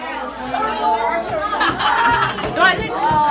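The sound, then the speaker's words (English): About 40 middle schoolers work together in a California classroom, their overlapping voices forming a busy, constant chatter in which many children talk at once. “That is the sound of about 40 middle schoolers in California working on their entry for the NPR Student Podcast Challenge.”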